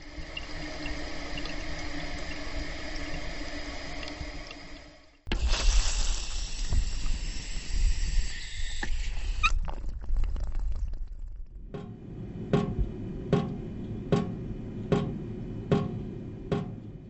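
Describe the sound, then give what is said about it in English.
Water leaks in three separate sounds: a leaky toilet tank refilling with a steady hiss, then a harsh spraying rush from a garden hose with a worn connection, then a dripping faucet giving a regular series of sharp, bright drips. “If you guessed leaking water, you were right. You heard a leaky and continuously refilling toilet tank, a garden hose with a worn-out connection, and a dripping faucet.”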